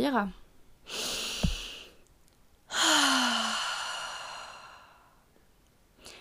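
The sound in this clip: Deep breaths taken during a relaxation exercise: one airy inhale lasting about a second, a short pause, then a second, louder breath that swells quickly and fades slowly over about two seconds.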